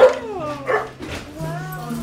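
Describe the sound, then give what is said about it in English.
Dogs bark and whine at the door of a small two-story house as visitors arrive. The short yips and whimpers are mixed with people talking. “The dogs are coming.”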